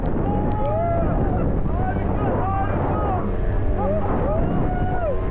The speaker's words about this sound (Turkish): Boğazın sert akıntısı, kuvvetli rüzgar ve peş peşe gelen dalgalar.